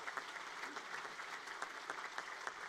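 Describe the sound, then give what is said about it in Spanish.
Crowd applauding after a religious procession, a faint but steady rush of many hands clapping with scattered sharper claps standing out. “Damos un fuerte aplauso y nos disponemos”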